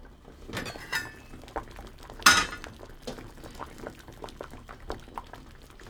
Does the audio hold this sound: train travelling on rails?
no